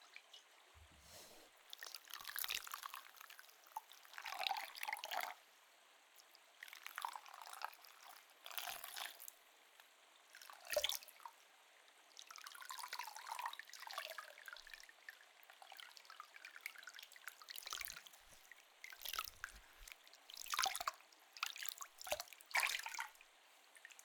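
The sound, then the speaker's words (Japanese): Hot water poured from a hand bucket down over a head during hair washing, coming in many soft bursts of splashing and trickling separated by quiet pauses. “手桶で上からもお湯を流しますので”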